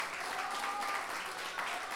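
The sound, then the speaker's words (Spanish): An audience applauds Chilean payadores at a national pie forzado tournament. Dense, even clapping continues without a break, fairly faint. “Quiero un gran aplauso para las payadoras y payadores chilenos. Que se note entusiasmo,”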